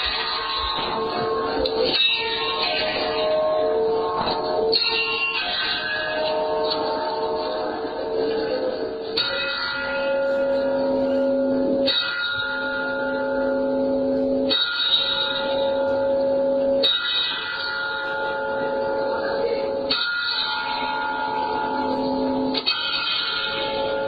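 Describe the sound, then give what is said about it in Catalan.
Church bells of Rebós ring out steadily, with many repeated strikes over sustained, overlapping metallic tones that stay loud and even throughout. “Va, doncs posem les campanes de Rebós.”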